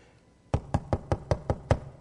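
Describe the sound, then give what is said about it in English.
Seven knocks on a door land in a steady, even rhythm, firm and hollow-sounding, each a short thud with a brief ring, with no talk. “I'm knocking. Behold, I stand at the door and knock.”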